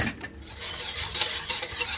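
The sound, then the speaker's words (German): Stirring of about one and a half teaspoons of salt into a whey bath for cheese curds: a continuous soft scraping and swishing with gentle, repeated strokes, fairly quiet. “Also ich gebe jetzt in diese Molkebad ungefähr anderthalb Teelöffel Salz. Genau, das können wir dann noch ein bisschen umrühren.”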